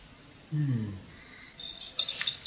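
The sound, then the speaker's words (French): A container of three-day-dried saffron is shaken briefly, giving a light, high rattle just after a short spoken word. “Je le prends, je le secoue un petit peu et je le remets.”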